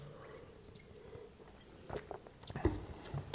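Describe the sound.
Wine being sipped and tasted, faint wet slurping and mouth sounds that come in a few short bursts in the second half, louder near the end.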